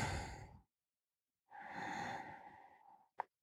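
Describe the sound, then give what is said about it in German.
Deep breathing: a short breath, a pause of about a second, then a longer, sighing breath of around a second and a half with a slightly voiced, airy tone, ending in a brief click. “Lass uns kurz gemeinsam einatmen”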